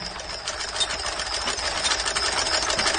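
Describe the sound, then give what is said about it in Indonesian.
A sewing machine runs steadily on its own, with a continuous busy whirring rattle at an even level throughout and no voices. “Mesin jahit itu pun berhenti sendiri.”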